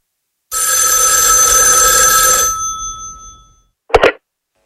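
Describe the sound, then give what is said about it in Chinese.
A telephone bell rings loudly in one continuous, steady burst that fades away, followed after a short pause by a brief sharp clatter. “旅长陈庚打来电话”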